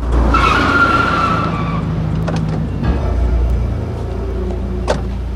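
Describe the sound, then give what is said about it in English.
Car tyres screech to a halt on a rain-soaked four-way urban junction, a loud high squeal over a deep engine rumble that gives way to lower skidding tones and a low idle. “A car screeches to a halt on a rain-soaked four-way urban junction.”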